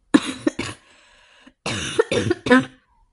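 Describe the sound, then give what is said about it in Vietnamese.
Several dry, harsh coughs in two clusters: a few sharp coughs, a short quiet pause, then another run of loud throaty coughs. “Yến Ngạc Thanh ho khan mấy tiếng, cậu kéo chăn qua.”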